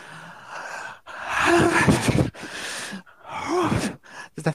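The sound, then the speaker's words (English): A deep breath drawn in, performed as several loud, strained gasps and sighs in quick succession, partly voiced and groan-like, with brief pauses between them and no words spoken. “Maybe you should take a deep breath to start me. Deep breath.”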